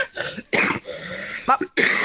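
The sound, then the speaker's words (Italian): A person with influenza coughs in a rapid run of harsh, hacking bursts with brief gasping breaths between them, loud and close together. “Scusate. Ma che tosse.”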